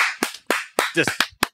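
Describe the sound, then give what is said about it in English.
Sparse claps from people on stage close to the microphone: a few sharp, separate slaps at an uneven pace, with a brief voice in between. “And the claps are just the people on stage.”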